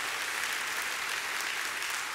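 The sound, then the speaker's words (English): A church audience applauding in praise: dense, even clapping throughout, loud and unbroken, with no talk. “Let's give the Lord another hand praise.”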